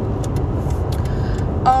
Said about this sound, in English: oh, and yes, I am driving.